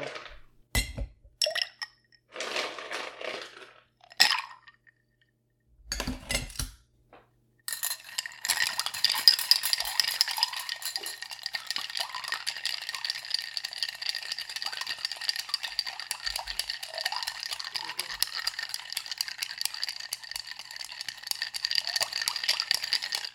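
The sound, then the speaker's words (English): Ice clinks and rattles as a St. Hubert the Hunter cocktail, a clear, citrus-free drink with cherry brandy, is stirred in a mixing glass. A few sparse knocks come first, then steady, rapid clinking runs to the end. “And you are going to stir with ice until very cold. There is no citrus and it's clear. So we're going to stir.”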